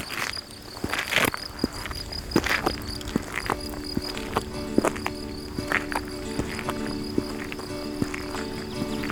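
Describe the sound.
Crickets chirp among greenery and flowers in the mountains, a high continuous trill throughout, with scattered sharp clicks and taps over it.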